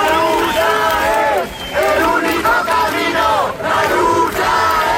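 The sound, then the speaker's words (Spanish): A crowd at Puerta del Sol in Madrid, Spain, reacts to news of a death, with loud, continuous massed shouting and chant-like voices that dip briefly twice before swelling again. “El sonido anoche en Sol cuando la gente se enteraba de la muerte de Mari Carmen”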